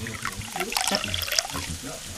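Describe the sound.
Liquid pours into a glass as a drink is served at a gathering, a brief trickling splash mixed with faint voices.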